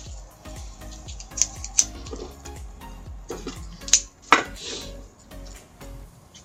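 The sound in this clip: A cigar cutter snips the end of a Padilla cigar, giving a few crisp, faint clicks and snaps over a quiet background with soft low thuds.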